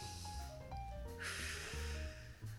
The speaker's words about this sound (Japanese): まずはリラックスしてください、はい、深呼吸をしていただいてですね、ちょっとやってみますね